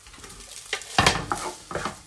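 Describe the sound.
Cooked pasta frying in a pan with olive oil and lemon juice gives a soft steady sizzle, broken by a few sharp scraping bursts as it is stirred and tossed against the pan.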